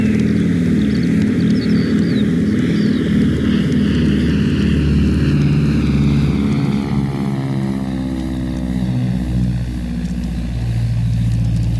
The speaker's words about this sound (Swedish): så blir det flygning med två SK-16.